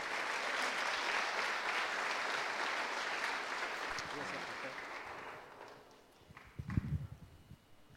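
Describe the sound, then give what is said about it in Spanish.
Congregation applause at a church service welcoming a speaker from Argentina: loud, steady clapping for about five seconds that then fades, followed by a few low thumps like footsteps. “Los recibimos con un fuerte aplauso, por favor.”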